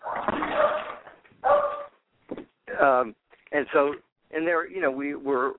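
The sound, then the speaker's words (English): A pet dog barks and yips in several short, sharp bursts with brief silences between them, some calls rising and falling in pitch. “and sorry about my dog.”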